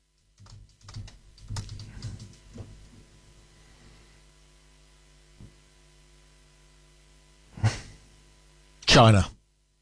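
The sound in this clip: Typing on a computer keyboard during an online search: a quick, irregular clatter of keystrokes early on, then a few isolated taps and two louder bursts near the end, over a steady low mains hum.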